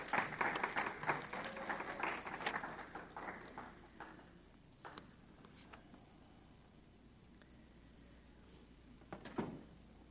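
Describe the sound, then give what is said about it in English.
Church audience applause as children leave the service: dense clapping for about four seconds that fades out, followed by quiet with a few scattered sharp knocks. “Let's give them a hand clap as they leave.”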